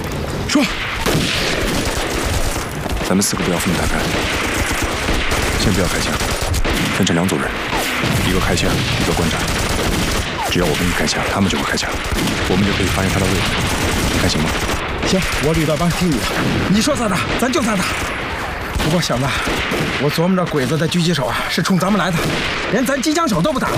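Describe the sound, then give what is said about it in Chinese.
Heavy machine gun fire comes from Japanese positions in a wartime battle scene. Dense, rapid gunfire and crashing blasts go on for the whole stretch, loud and continuous, with men's voices speaking over it at times. “鬼子重机枪火力太猛，我们得解决他。”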